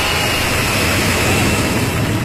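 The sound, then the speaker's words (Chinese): A large domestically built passenger jet taking off gives a steady, loud, broad roar that holds without a break. “从无到有，国产大飞机一飞冲天”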